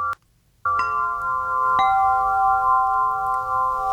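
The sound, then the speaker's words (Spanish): A samafón, a therapeutic sound instrument, is struck a few times and rings with bright, sustained metallic tones that hang steadily and overlap, with each new strike adding a short attack above the continuing hum. “Este es el samafón, escucha.”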